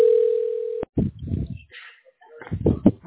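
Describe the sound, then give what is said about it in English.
A steady telephone dial tone hums at one even pitch for just under a second, then cuts off sharply with a click before manual dialing. A few irregular, noisy bursts follow. “I dial manually, so I'm gonna take my time.”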